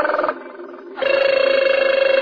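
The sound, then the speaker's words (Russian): A mobile phone rings with a steady electronic tone that warbles rapidly at one pitch, following a short stretch of a different tonal sound. “Это же моя мобила. Алло.”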